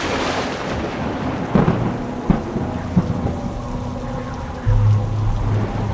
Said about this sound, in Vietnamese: Nước mưa ồ ạt từng cơn dữ dội, làm ướt hết cả sàn.